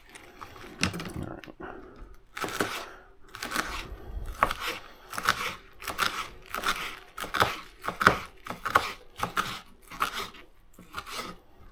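Bok choy is being cut up with many crunchy chops in a quick, fairly regular rhythm, each one a crisp crackling strike standing out clearly above a quiet background.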